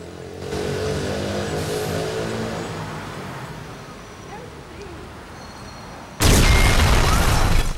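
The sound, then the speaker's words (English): Explosion at a coffee bar: a low, steady street rumble with a passing car gives way near the end to a sudden loud blast, whose broad roar holds strongly through the final seconds. “A thick cloud of smoke spews out from the coffee bar he's just left, the force of the blast blowing him off balance.”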